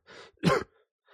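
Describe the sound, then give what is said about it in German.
Throat clearing after choking: a soft rasp, then a louder, gravelly clearing burst, and a faint trace of a further rasp at the very end, alone with no talk. “Entschuldigung. Hab mich vor lauter Aufregen hier verschluckt.”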